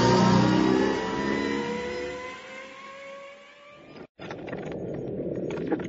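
An engine revs hard as the throttle is squeezed and the vehicle speeds off. Its loud, whining tone slides steadily downward and fades, then cuts briefly before a steady hiss.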